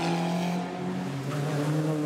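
A race car engine drones as the car drives through a chicane, holding a steady, loud buzzing tone that dips slightly in pitch midway before settling again.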